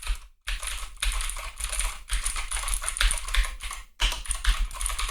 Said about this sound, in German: Die Tasten sind so schön, sind schön hoch und vor allen Dingen, hört mal, ich tippe jetzt mal, ich weiß nicht, ich hoffe, ihr kriegt das mit.